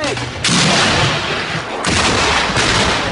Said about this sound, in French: Le Hezbollah a reconnu nos tirs depuis le village.